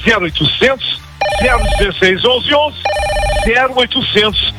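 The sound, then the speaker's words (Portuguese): A telephone rings with an incoming call, two bright, high, buzzing ring bursts that come between stretches of lively talk. “estão ligando”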